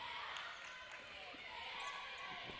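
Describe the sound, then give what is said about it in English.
A basketball is dribbled on the court during a women's college basketball game, a quick series of sharp bounces under a broad, steady wash of background noise. “Lady Bison dribbling, they'll swing it out left side.”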